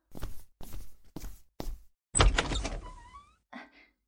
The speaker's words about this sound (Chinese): 我去开门。